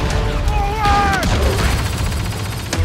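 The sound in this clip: Laser blaster fire from a science fiction shooter video game: a few sharp zaps with falling, whining tones over a dense, loud, noisy battle bed.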